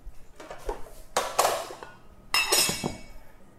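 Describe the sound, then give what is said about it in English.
Metal bowl being removed from a stand mixer after mixing cake batter: a few bursts of clanking and clinking, with a bright rattle near the middle and a louder clatter toward the end, alone without talk. “Remove the mixer bowl.”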